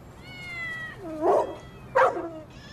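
A mother cat meowing: a faint drawn-out cry, then two loud, strained meows about a second apart.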